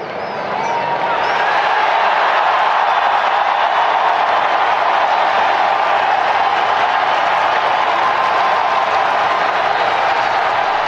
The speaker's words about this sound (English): Pope Leo the 14th stepped out onto the balcony at the Vatican, and how that crowd reacted to American Pope.